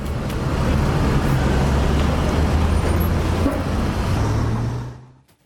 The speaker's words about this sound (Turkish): Kaza sonrası trafikte uzun araç kuyruklar oluştu. Kilometrelerce uzayan yoğunlukta kameraya yansıdı.